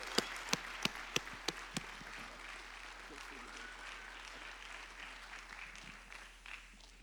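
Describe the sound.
Audience applause welcoming a guest speaker at a church service, opening with a few sharp individual claps that blend into steady, sustained clapping with voices mixed in.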